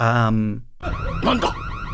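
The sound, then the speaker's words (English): Car alarm sound effect standing in for a military base alarm in a game's 2006 remastered mix: loud electronic tones that shift into warbling, sweeping wails. “that's a car alarm. That's a car alarm. That is not a military base alarm.”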